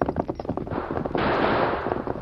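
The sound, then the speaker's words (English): Gunshots from outlaws holding up a stagecoach on a Western trail: several sharp cracks, then a steady, loud rushing noise. “Those shots, Tonto. Came from up ahead around the bend.”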